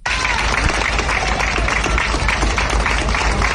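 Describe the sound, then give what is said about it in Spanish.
Crowd applause for police and health workers at a hospital in the evening: steady, dense clapping from many hands that holds at an even level from start to finish. “Este era el aplauso en el hospital de Son Llàtzer, de Policía Nacional, Policía Local, Sanitarios.”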